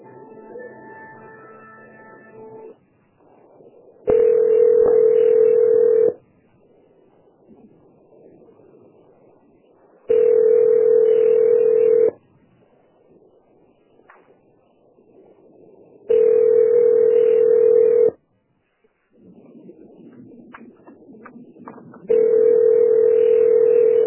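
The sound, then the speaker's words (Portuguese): Telephone tones during a call transfer: four long, steady tone bursts of about two seconds each, evenly spaced, with quieter hissing line noise in the gaps between them. “Que eu estou transferindo a ligação.”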